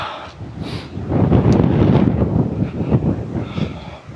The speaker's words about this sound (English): The wind is actually quite warm. It's certainly not cold. It's blustery